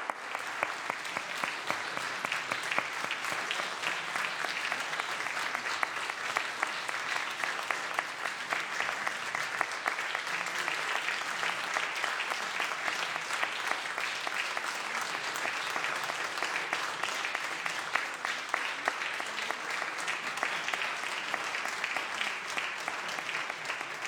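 Sustained applause on the Senate floor of the Capitol welcoming a group of guests: a steady, dense wash of clapping from many people that continues evenly for the whole stretch without breaks.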